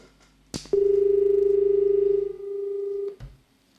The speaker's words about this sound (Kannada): ಕರೆ ಕಟ್ಟಾಗಿದೆ ಅಂತ ಅನ್ಸುತ್ತೆ.